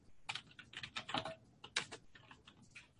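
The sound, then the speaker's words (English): Typing on a computer keyboard as a client name is entered into a test copy of a form: many quiet, irregular key clicks in quick bursts, with no voices. “And I'm going to type in here.”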